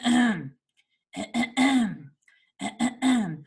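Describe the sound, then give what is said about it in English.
A voice imitates someone clearing their throat, in three harsh vocal bursts separated by short pauses: first a single rasp, then two groups of several quick rasps each. “But then all day she cleared her throat.”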